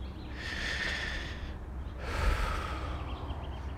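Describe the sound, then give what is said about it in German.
Deep, slow breathing in and out, with two long airy breaths: a drawn inhale followed by a fuller exhale. The sound is soft and breathy, with no talking. “Tief einatmen, ausatmen.”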